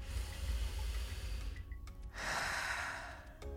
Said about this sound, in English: For now, I invite you to take one last breath with me.